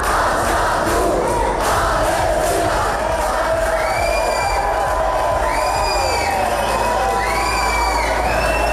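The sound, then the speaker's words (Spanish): Crowd shouting and whooping during riots at Bilbao airport, where police charged protesters blocking the doors. Many loud, overlapping high cries and cheers rise and fall continuously. “Sonido de esos altercados, de esos disturbios ocurridos ayer en el aeropuerto de Bilbao.”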